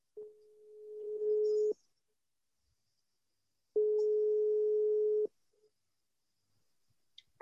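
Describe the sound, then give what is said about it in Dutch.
Telephone tone heard while a radio host calls a listener: two long, steady, mid-pitched tones, each about a second and a half, separated by a pause of about two seconds, then brief faint clicks at the end. “Aangevraagd door Inge, dus die gaan we nu eventjes bellen.”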